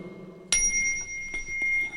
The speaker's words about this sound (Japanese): 最後はそっと優しくね、鳴らしてくださいました。お輪の音が心地いいです。